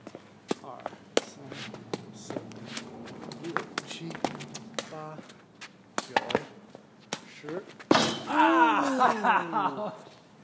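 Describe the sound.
A foot kicks the bench of a picnic table, among a scatter of sharp knocks and thumps. A heavier impact follows, and a voice cries out right after it.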